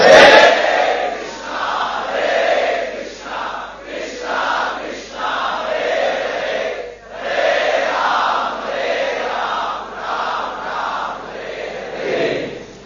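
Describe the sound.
A crowd chants holy names together in unison, voices blending into long, sustained sung phrases that repeat in waves with short breaths between them, steady and fairly loud throughout.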